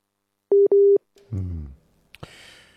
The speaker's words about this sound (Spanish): Bien, se nos fue la llamada.